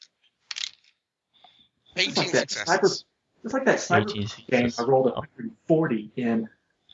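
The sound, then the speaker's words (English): Dice clattering during a tabletop role-playing game: a few brief, hard rattles mixed in with a person counting the results aloud. “Oh my, 13, 14, 15, 16, 17, and I rerolled two more dice.”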